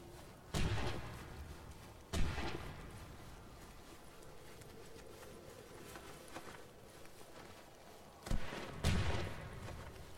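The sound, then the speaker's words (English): Gunshots ring out in a video game match with a bomb objective: four sharp, faint cracks, two spaced apart early on and two close together near the end, over a low, steady background hiss. “Somebody took a shot at me.”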